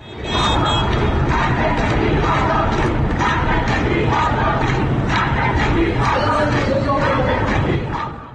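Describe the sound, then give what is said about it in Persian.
A large crowd of lawyers chants and shouts in protest outside the central bar association building in Tehran. The dense mass of voices stays loud and steady throughout, with no pause. “این صدای وکلای دادگستری است.”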